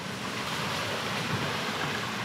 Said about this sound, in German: Das meinst du mit Flussquerung? Ich dachte an eine Brücke, die über den Fluss führt. Nein, nein, wir durchqueren den Fluss. Hier ist es etwas tiefer.